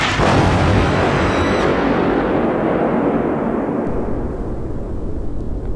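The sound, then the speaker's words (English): Explosions from a ship being shot and destroyed: one loud, sustained roaring blast fills the whole clip as a dense, heavy rumble that slowly thins out, with no clearly separate bangs. “Yeah, so I really didn't think there'd be a follow-up after the ship was destroyed.”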